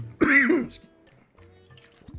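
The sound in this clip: A person clears their throat to dislodge a piece of green pepper: one loud, rasping throat clear, then near silence with only faint low sounds afterward.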